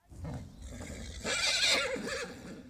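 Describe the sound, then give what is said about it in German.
A horse neighs in a long whinnying call with a wavering, trembling pitch that grows louder through the middle. “Ein Pferd.”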